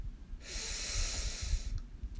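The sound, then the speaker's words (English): One deep breath in during a guided meditation, a single long, airy hiss of inhalation lasting over a second, alone and fairly soft. “Take a deep breath in”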